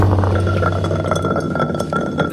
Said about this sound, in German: Oh, der X-Bot ist runtergefallen. Wie ein nasser Sack.